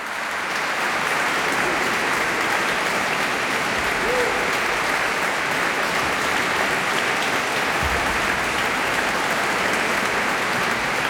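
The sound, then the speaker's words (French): Festival audience applause after a concert by the Aedes choir at the Rencontres musicales de Vézelay, a sustained, even wash of clapping that carries on for the whole clip. “Le chœur Aedes, bravo, un superbe chœur, serviteur, chœur révélateur même de bien belles partitions, comme le prouve ce concert acclamé par les festivaliers des musicales de Vézelay”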